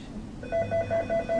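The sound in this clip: A mobile phone rings with a rapid run of short, evenly spaced, mid-pitched electronic beeps that start after a brief pause. The ring is fairly faint.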